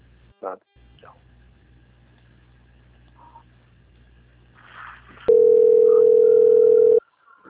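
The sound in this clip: A steady, mid-pitched telephone tone sounds on a bank call being transferred, holding unbroken for nearly two seconds and then cutting off, after a few faint, brief sounds.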